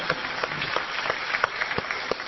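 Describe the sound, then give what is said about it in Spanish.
Audience applause at a stage show after a rapid number-recital act. It is a moderate, steady patter with several sharper individual claps standing out. “¡Es increíble! ¡Impecable, señores! ¡Un aplauso!”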